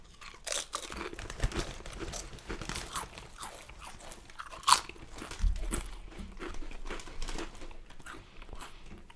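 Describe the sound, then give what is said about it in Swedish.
Crunching of lighter sour cream and onion potato chips from Estrella as they are eaten: many crisp, crackly bites and chews, fairly faint, with some crinkling and no talk. “men jag förstår att det här rasslar nu, men nu provar jag lättare sour cream än onion chips från Estrella”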